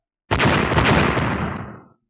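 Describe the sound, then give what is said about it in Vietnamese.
A huge explosion in a fantasy battle sounds as one loud, broad, rumbling blast that roars for about a second and a half and then fades away. “13 tiếng nổ kinh thiên, những vụ nổ kinh khủng này có uy lực nhân lên gấp bội”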